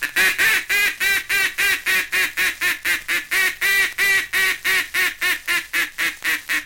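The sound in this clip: A hunter's duck call blowing the come-back call to ducks, a long, even run of many loud, nasal quacks at a brisk, regular rhythm, with no talk over it.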